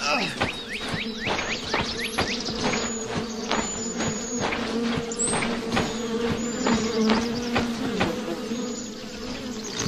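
Many bees buzz around a hive in a dense, steady drone, with individual insects whining past at varying pitches and a scatter of brief sharp ticks throughout.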